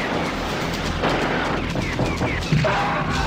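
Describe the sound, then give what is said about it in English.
Gunfire from a huge gun: dense, continuous shooting with a few sharper cracks poking out, held at a steady, loud level across the whole stretch. “So after Punisher kills people with that huge gun”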